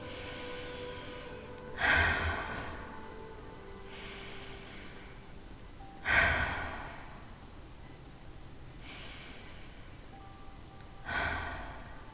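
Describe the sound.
Three deep cleansing breaths during a meditation practice, soft, airy and evenly spaced several seconds apart, each swelling and fading gently over quiet background.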